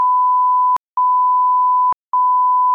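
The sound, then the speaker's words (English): A censoring beep: a steady, pure mid-pitched electronic tone sounds loudly in three stretches, broken by two brief silent gaps. “taking advantage of this new beep sound effect we've got”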